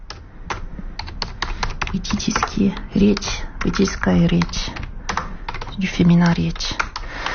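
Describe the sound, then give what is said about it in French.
Rapid computer-keyboard typing as someone writes in Russian, the quick irregular taps running continuously beneath a person talking. “J'essaie d'écrire en russe.”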